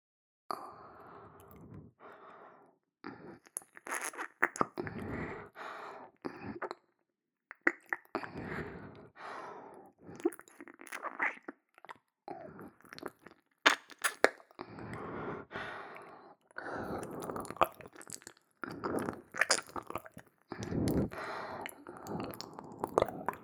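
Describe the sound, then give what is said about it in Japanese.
Close-up wet ear-licking sounds, many soft squishy smacks and slurps arriving in irregular bursts separated by brief quiet pauses. “では、密着耳舐めさせていただきます。”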